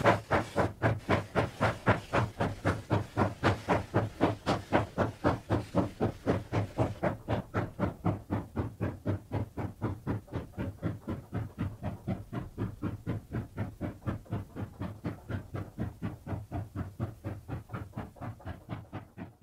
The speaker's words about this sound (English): The rake is divided up in the mine and loaded with coal before being drawn to Nanzan by a single locomotive.